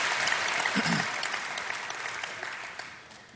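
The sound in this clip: A church audience applauds a guest preacher at an evening service, a dense wash of clapping that slowly fades over a few seconds.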